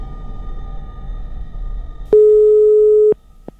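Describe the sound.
A single steady electronic beep, presented as a signal sent by alien radio operators toward Barletta, holds for about a second and is followed by one short blip. It rises sharply out of a low, rumbling background.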